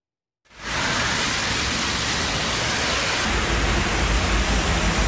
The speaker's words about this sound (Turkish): Yurttan sağanak manzaralarına bakalım.